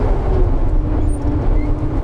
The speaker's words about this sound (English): That noise you're hearing there, that's my engine fan. It's kicking in, the clutch is kicked in, it's got warm enough that it just gave us a boost.